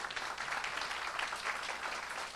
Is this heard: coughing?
no